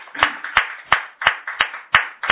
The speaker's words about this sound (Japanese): 山崎理香さんが満37歳を迎えられましたので盛大な拍手でお祝いします